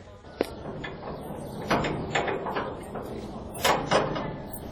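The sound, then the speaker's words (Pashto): A prison door is opened with a faint series of clicks, knocks and scraping rattles, spread unevenly across a low background hum. “ضابطه دروازه خلاصه کړه.”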